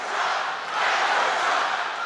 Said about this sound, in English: And this is what the crowd was chanting that day.